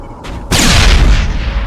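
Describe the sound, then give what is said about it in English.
A grenade explodes in a video game shooter. A faint brief sound comes first, then a sudden loud boom with a broad, rumbling, hissing tail that slowly fades over about a second. “Ooh, press G to throw a grenade.”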